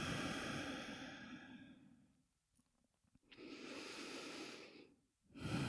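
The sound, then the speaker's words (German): Slow, deep breathing in and out during a guided heart-centred meditation: long, airy breaths, loud and close, with a brief quiet pause between them and a fresh breath starting at the end, no talking. “Immer tief ein- und ausatmen hier in deinen Herzraum.”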